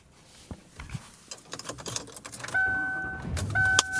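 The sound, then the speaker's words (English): Sounds inside a car as it is driven home on a cold day: scattered clicks, taps and rattles give way to a steady engine hum. An electronic two-tone chime sounds twice over it. “And I am driving home and it's cold.”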